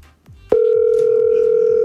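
A steady telephone dial tone cuts in after a couple of soft clicks and holds at a constant, loud, unchanging pitch until the end.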